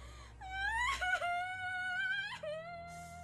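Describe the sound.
A girl bursts into tears with long, wavering wails, her voice high and strained. The cries rise and break in sobbing catches and stay loud and sustained throughout.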